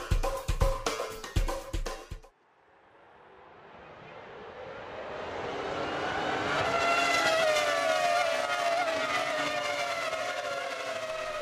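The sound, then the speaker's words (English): Formula One racing car engines roar, swelling steadily from quiet to a loud, sustained, whining drone after a few sharp percussive hits at the start. “Tell from the roar of the engines, but for the last few years, Formula One cars have been just a little bit more eco-friendly.”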